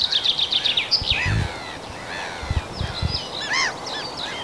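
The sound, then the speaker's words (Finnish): Common chaffinch and European pied flycatcher sing in a forest in the early morning, bright high trills and short whistled phrases repeating over several seconds, with faint low rustles and no talking. “Ja siellä kirjosieppo kuului tuossa peipon lomassa.”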